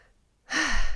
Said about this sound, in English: Inhale with a count of six. You hold. And you slowly exhale.